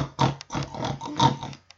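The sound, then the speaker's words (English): A pet pig kept in a house grunts in several rough, nasal bursts of similar length, loud and close together, with no talking. “you can't keep a pig in this house. Pigs are dirty and they're stinky.”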